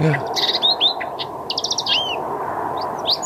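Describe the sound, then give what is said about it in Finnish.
Birdsong from a nightingale, a thrush and other birds: many short chirps, trills and whistles that overlap and repeat over a steady low background hiss. “Siinä varmaan oli vähän satakieltä. Kyllä. Ja pikkeliä ja joku rastas.”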